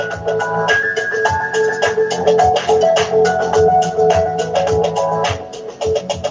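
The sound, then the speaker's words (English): Background music from the speaker's own song plays on its own, with steady rhythmic pulses under sustained tonal notes and shifting melodic lines, fairly loud and continuous throughout. “You can hear the music in the background.”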